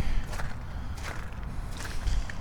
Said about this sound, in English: crunchity crunchity crunch, walking around, looking down Frog Harbor.